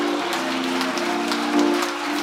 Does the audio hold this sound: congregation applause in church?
yes